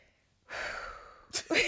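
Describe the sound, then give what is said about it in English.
A deep inhaled breath, an airy rush lasting under a second, followed by a short burst of voice. “She had to take a deep breath on that one.”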